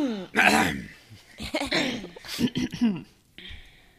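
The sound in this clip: A woman clears her throat delicately, a few soft, voiced rasps in short bursts that rise and fall in loudness, with a breathy, almost laughing tone to some of them.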